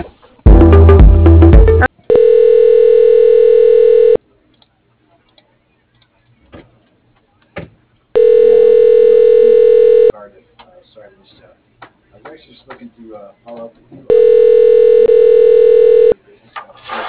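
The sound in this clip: A telephone ringback tone plays while a call is transferred to a bank contact's voicemail: three long, steady tones of about two seconds each, with silent gaps of a few seconds. A short noisy burst comes first, and faint voices sound between the tones.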